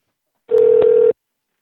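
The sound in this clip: Telephone ringback tone on an outgoing call: a single steady, mid-pitched electronic ring lasting just over half a second, loud and alone between silences.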